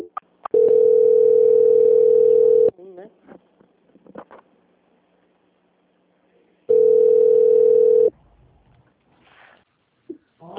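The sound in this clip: A telephone ringback tone plays while a call is transferred to a quality-control department: two loud, steady, even-pitched tones, the first about two seconds long and the second shorter, separated by a long quiet gap with faint, brief sounds.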